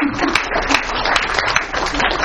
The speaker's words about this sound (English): That deserves an applause.